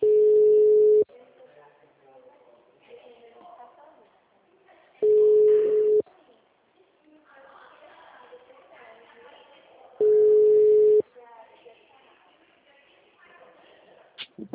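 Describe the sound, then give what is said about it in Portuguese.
A telephone busy tone follows a dropped call: three loud, steady one-second beeps at an even pitch, spaced about four seconds apart, with a person talking quietly in the gaps between them. “a ligação caiu”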